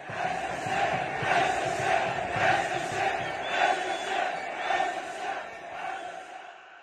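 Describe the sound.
A Moroccan stadium crowd chanting a protest slogan: a mass of voices in a steady, rhythmic pulse, loud and sustained, then fading out at the end.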